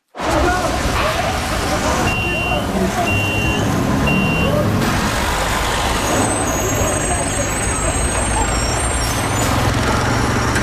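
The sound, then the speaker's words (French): Loud, continuous city street traffic in the Montreal area, with the rumble of trucks and the hiss of air brakes, plus a few short, high beeps repeating briefly partway through. “Oui, c'est bien dans la radio que ce bruit joue. Si vous vous posiez la question, peu importe où vous vous trouvez présentement, on va parler de bruit dans la grande région de Montréal. Le bruit des rues, des villes”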